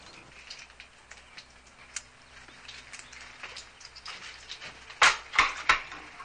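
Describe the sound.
Pots and dishes being handled in a small house kitchen, with a pot left to soak: faint quiet rattling through most of the stretch, then a few sharper, louder clinks and clatters close together near the end.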